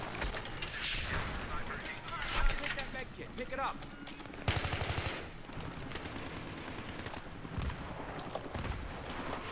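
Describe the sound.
Gunfire in a shooter video game, including a sniper rifle. Several sharp, loud shots and rapid bursts cut through clattering mechanical game sounds.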